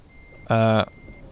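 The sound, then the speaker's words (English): A single reversing beep from a truck in a driving video game, one clean electronic tone lasting about a third of a second, rising sharply out of near-silence and cutting off just as abruptly. “Just going to reverse out onto the road without looking.”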